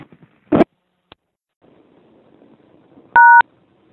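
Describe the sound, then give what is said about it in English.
A single touch-tone beep rings out as a number is dialed on an outdoor payphone keypad. A short thump and a faint click come before it, with soft background noise underneath. “Well, I obviously dialed the wrong number, but standing out here at a payphone trying to reach a certain person”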